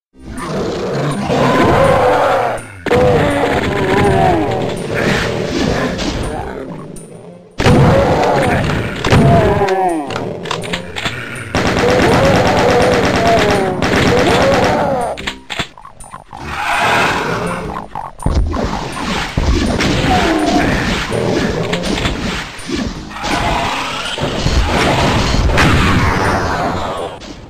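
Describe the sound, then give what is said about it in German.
Classic Doom video game soundscape: monster roars, heavy thuds, booms and crashes pile up in a dense, loud, nearly continuous stream with only brief gaps. “was wir vorspielen können, ist tatsächlich die Soundatmosphäre und wir können uns mal ein Bild davon machen, wie das klang damals, wenn man Doom gespielt hat.”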